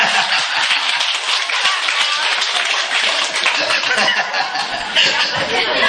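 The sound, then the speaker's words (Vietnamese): Audience applause fills the whole stretch, dense and steady for about six seconds at an even, lively level with no breaks. “Vỗ tay đi.”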